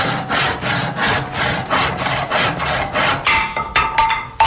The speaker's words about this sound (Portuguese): Serra a ponta desses caras tudinho aí.